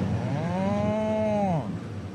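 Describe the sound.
A cow moo used as a sound effect during a futsal match: one long, low, droning moo that holds its pitch, then sags downward at the end before cutting off. No voices are heard.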